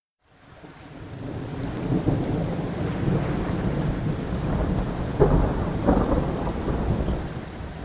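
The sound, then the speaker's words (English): Heavy rain and wind swell in from silence into a steady, dense roar, with low rumbles of thunder and a few louder gusts or splashes toward the end. “Listen to the wind. Look at the rain.”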